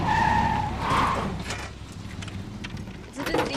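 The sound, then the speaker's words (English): A car is driven up a steep hill and parked in a driveway. Rough engine and tyre noise is loudest at the start, dips through the middle and swells again briefly at the end. “Now, Nicole drives up a steep hill. She parks in her driveway.”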